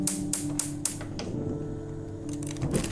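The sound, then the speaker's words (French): A match is struck to light a wood fire: four sharp, quick clicks come first, then a brief raspy scratch near the end over a faint low background. “C'est toujours prêt à l'allumer, là je mets une allumette et voilà.”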